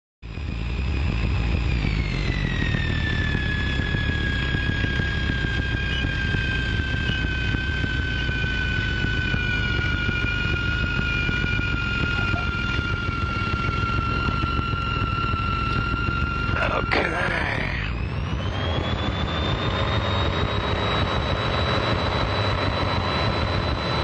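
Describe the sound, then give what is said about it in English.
Steady engine drone from a small airplane flying the airport traffic pattern. It holds loud and even throughout, the engine tone dropping early on and climbing again near the end after a brief disturbance. “For aviation enthusiasts, I think even the sound of a landing can be cool. I hope so, anyway. I'll let this go as I go around the pattern again and then back for my final landing of the day.”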